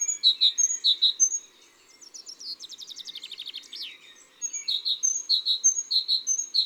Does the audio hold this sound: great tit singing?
yes